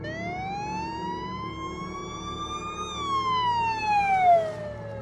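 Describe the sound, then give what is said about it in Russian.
A police car siren sounds as the car passes by: one long wailing tone that climbs steadily in pitch, peaks about midway, then falls away, with traffic rumble underneath. “Полицейская сирена, проезжающего мимо него автомобиля, оборвала грустные мысли.”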